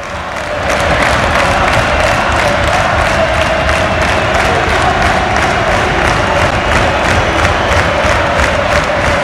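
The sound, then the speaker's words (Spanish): A football crowd at Riazor stadium roars steadily during stoppage time. The dense, loud mass of cheering and chanting runs unbroken from start to finish with no voice over it. “Al público de Riazor le da igual, escuchad. Esto es ahora mismo Riazor.”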